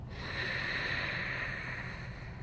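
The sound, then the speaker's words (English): A person draws a slow, deep breath in while lying on their back during a guided breathing exercise: a soft, steady airy hiss that holds evenly for about two and a half seconds, with no talking. “I'm gonna breathe in”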